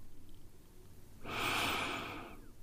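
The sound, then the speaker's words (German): A single deep breath, a soft, broad rush of air lasting about a second, heard alone against a quiet background. “Nimm noch mal einen tiefen Atemzug.”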